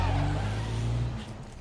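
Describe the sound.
A car drives off, with a low engine drone that holds steady for about a second, then thins out and fades.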